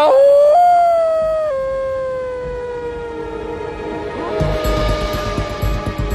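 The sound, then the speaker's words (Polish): Wolves howling in a nature documentary series: one long, loud, sustained howl that slides slowly downward in pitch. A rougher, noisy wash joins it near the end. “David Attenborough próbuje właśnie nawiązać kontakt z wilkami w jednym z licznych przyrodniczych seriali”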